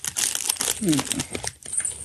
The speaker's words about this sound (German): Mit so Schoki in der drin. Alles einzeln eingepackt. Raschelt jetzt natürlich schön.